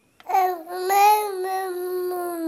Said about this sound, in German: Also da hört man schon fast Pseudo-Vokale heraus. Die sind 2 Monate alt. Also man würde doch denken, das ist schon 5, 6 Monate Babbeln.